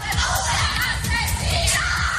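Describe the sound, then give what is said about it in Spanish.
Relatives of a soldier murdered in Ceuta shout and cry out, many voices overlapping in loud, continuous, anguished yelling. “Gritos de los familiares del militar asesinado recogidos por nuestros compañeros en Ceuta”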